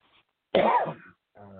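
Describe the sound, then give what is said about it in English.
A single short, hoarse cough from someone with a cold, loud and abrupt. A voice begins faintly right after. “Well, I'm coughing. I think it's just a cold.”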